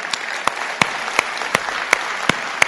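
Audience applause welcomes a guest to the stage: a bed of crowd clapping with a steady run of sharp, regularly spaced claps standing out on top.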